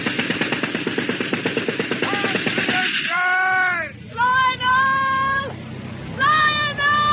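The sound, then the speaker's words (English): A machine gun fires a burst astern of a vessel from a motor torpedo boat, a fast, steady rattle of regular shots lasting about three seconds, followed by raised voices. “Give one machine gun burst astern of the vessel.”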